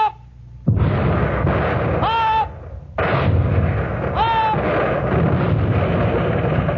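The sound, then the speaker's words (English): Heavy naval guns on a warship fire shells in two massive booming blasts, each followed by a long, roaring rumble, with thin whistling tones ringing over the noise. “Every 10 seconds, the guns were ready and loaded, and every 10 seconds, the shells were hurled out of them.”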